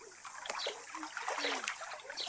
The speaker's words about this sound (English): Somebody jumping into a swimming pool.